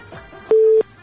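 A telephone call connecting tone: one steady, mid-pitched electronic beep lasting about a third of a second, sounding alone over faint background noise.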